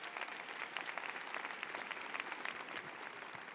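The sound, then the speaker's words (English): Dense, steady applause from an audience welcoming a speaker to a debate, a continuous wash of many hands clapping for the whole stretch with no talk over it. “Un aplauso para él.”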